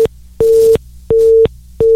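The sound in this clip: A telephone busy tone sounds after the other caller hangs up on a call-in line: loud, steady, evenly spaced beeps at one fixed pitch, with silent gaps between them and no talk.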